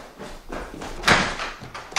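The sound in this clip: A door is being opened in a dramatised scene, with a few muffled thumps and a sharper knock-like burst midway through a short, fairly quiet stretch, and no talk.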